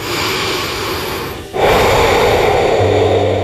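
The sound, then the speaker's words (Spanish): Breathing, loud and alone: one long breath, a short pause, then a second steady, airy breath that carries on to the end. “Pausa. Respira.”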